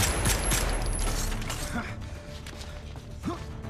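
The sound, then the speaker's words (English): Gunfire in a film shootout involving a shotgun and a handgun, with a rapid burst of sharp shots at the start followed by a few scattered cracks and some mechanical clatter. “Frank leaps up and shoots. Frank dives behind another table. Baxter drops the shotgun and grabs a handgun.”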